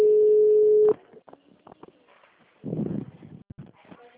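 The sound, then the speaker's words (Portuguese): A dropped phone call sounds as a single steady electronic tone lasting about a second. After it cuts off, quieter scattered clicks and murmurs follow. “Oi, amigo, a ligação caiu.”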